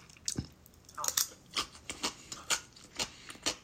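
Crunchy chewing of fukujinzuke, a spicy Japanese pickled relish: many crisp, moist bites in a fairly regular rhythm, faint and with no talk.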